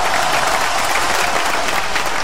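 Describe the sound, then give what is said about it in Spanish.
Audience applause welcoming a guest, a dense, even wash of many hands clapping at steady loudness throughout, with no pauses or voices standing out. “Muy bien, no hay que ser escuetos en los aplausos.”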